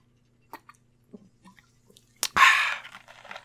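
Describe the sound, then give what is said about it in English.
Soft clicks from a can of Diet Pepsi, then a sharp crack and a short burst of fizzing hiss as it is opened to drink, followed by faint crackling. “Excuse me, I'm gonna drink some Diet Pepsi. We'll make this into ASMR.”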